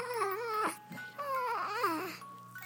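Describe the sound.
A baby girl makes little whimpering, cooing noises in two drawn-out vocal phrases. Her pitch wavers and bends, and the sound is soft and steady.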